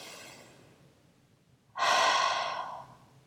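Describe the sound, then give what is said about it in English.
Deep yoga breathing, with a soft, airy breath followed by a loud, open-mouthed exhale lasting about a second that rushes out and then tapers away. “take a deep inhale through your nose. Open mouth. Two more times, inhale.”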